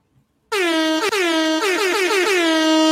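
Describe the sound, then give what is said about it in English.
Air horn: after a brief silence, one loud, sustained blast sounds, rich and brassy, with a few quick wavering dips in pitch and loudness along its length. “Air horns, goddammit.”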